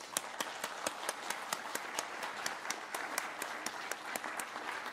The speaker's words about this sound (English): Let's thank Dr. Croft again.